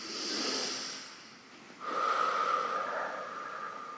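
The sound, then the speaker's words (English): A deep breath during a guided relaxation: a long, soft breathy rush, then a louder second phase with a thin whistling nasal edge that holds steady to the end. “Take a deep breath.”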